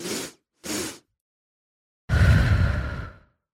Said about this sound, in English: So this breath again is a double inhale in your nose, followed by an extended exhale out your mouth.